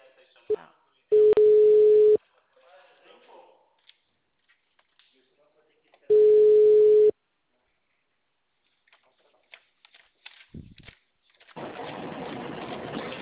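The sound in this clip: A telephone call being placed sounds two steady, mid-pitched tones, each lasting about a second and separated by a long pause. Faint rustles fill the gaps, and a broad hiss of line noise follows at the end.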